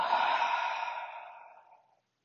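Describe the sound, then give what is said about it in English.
A single deep, breathy exhale during a guided relaxation breathing exercise, starting fairly strong and tapering smoothly into silence over about two seconds. “Take a big inhale and let it go.”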